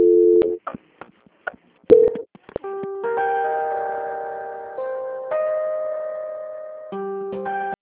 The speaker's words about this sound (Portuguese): Acho que na transferência caiu a ligação